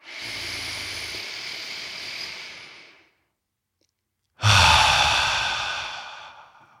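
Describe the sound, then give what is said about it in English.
Two long, deep breaths with an airy, hissing quality, each several seconds long and separated by a short silent pause. The second breath starts louder, and no talk is heard. “Take as many deep breaths as you need.”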